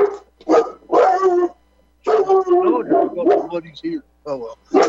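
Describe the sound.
A dog barks repeatedly in many short, sharp bursts with brief gaps between them, mixed with speech.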